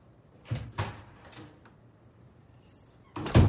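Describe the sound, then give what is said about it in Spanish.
Keys are put away into a handbag while walking down a hallway, making a few light metallic clinks and rattles spaced apart, then a louder clatter near the end. “cruza el pasillo guardando las llaves en el bolso”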